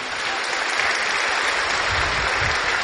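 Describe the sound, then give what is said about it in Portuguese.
Audience applause at a book launch event: a dense, steady wash of many hands clapping together, holding an even loudness for about three seconds with no talking over it. “eu queria que vocês batessem uma salva de palmas pro Nil”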